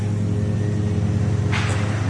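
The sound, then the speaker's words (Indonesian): Traffic passing on a road near Jalan Soekarno-Hatta after midnight: a continuous low engine rumble with a short burst of hiss toward the end. “Jadi meski lewat tengah malam, kadang suara-suara dari kendaraan yang lewat masih dapat terdengar.”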